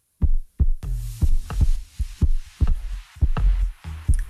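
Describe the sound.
A human heartbeat sounds alone: a steady run of low, muffled double thumps, loud and evenly paced throughout.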